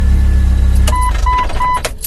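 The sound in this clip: A 1999 Jeep TJ engine, just restarted after an ignition cylinder repair, runs with a loud, low rumble. Three short, high beeps then sound over the engine noise.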